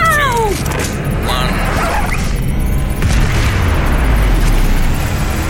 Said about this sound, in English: We have blast-off.